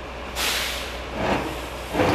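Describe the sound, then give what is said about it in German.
A low engine rumble as military vehicles, an SLT heavy tractor and a Dingo, are driven into a machine hall. A steady drone runs throughout, broken by three bursts of air hiss. “Wir sehen gerade, wie zwei Fahrzeuge in die Halle gefahren werden. Wir haben hier einmal rechts den SLT, die Zugmaschine, und links haben wir nochmal einen Dingo. Die werden jetzt auf die Arbeitsplätze gefahren.”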